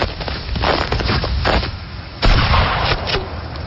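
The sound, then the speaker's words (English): A single sharp rifle shot from a new rifle, a kill shot, bursts out past the midpoint over a steady rough noisy background. “That's the 4th straight kill shot. I've been getting in some practice. Is that a new rifle, too?”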